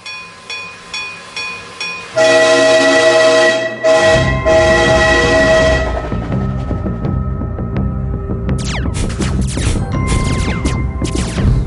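A train gives a rapid series of a few short rising toots, then a loud sustained horn blast. Heavy rumbling and clattering rail noise follow, with brief metallic squeals near the end.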